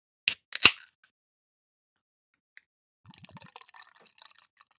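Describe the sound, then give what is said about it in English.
A can of cherry-flavoured beer cracks open with two sharp snaps. After a quiet pause comes a soft, burbling pour into a glass, with small gurgles trickling off at the end. “So I'm going to crack this beer. And I'm going to pour it in a glass.”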